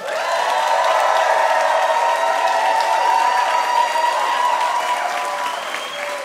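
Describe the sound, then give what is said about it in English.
Dense, sustained applause from an audience welcoming a guest, holding at an even loud level throughout with a slight easing near the end. “Give it up for Cal Penn.”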